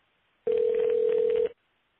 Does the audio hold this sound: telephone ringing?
yes